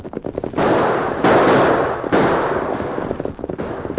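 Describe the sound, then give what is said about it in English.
Guns fire in a shootout as outlaws try to hold up a buckboard on a trail: many sharp cracks scattered through, with dense stretches of overlapping shots in the middle. “Use your guns, Tonto.”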